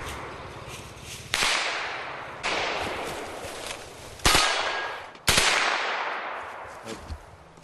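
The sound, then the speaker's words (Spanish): Four loud single gunshots from a machine gun fired at imaginary enemies on a shooting course. Each sharp crack trails off in a long, noisy decay, and the shots come at uneven intervals. “$50 con una metralleta por $35. 5 minutos disparando contra enemigos imaginarios. Contra Charlies inertes.”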